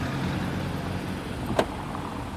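A car sets off from a street in Lublin. Its engine gives a steady low rumble throughout, broken by one brief sharp click near the middle, with no voices.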